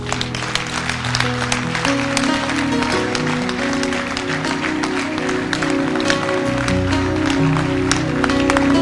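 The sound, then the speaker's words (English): Audience clapping hands during a sermon, many quick, dense claps running throughout beneath loud, sustained music. “Can you clap your hands?”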